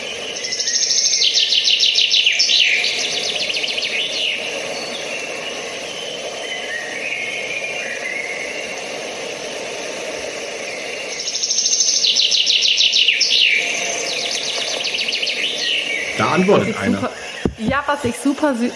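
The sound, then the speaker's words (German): A male chaffinch sings two loud, quick trilled phrases that descend in pitch and are separated by a long pause. Fainter birdsong continues in between. “So, ich lasse einfach mal laufen. Den hören wir auch momentan überall. Genau. Hier kommt der Buchfink.”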